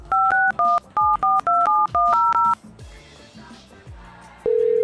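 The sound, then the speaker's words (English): Telephone keypad tones beep in a quick, uneven series of many short dual-tone presses as a phone number is dialed. A quieter stretch follows, then a steady single tone sounds at the end. “We tried to call Trump a few times.”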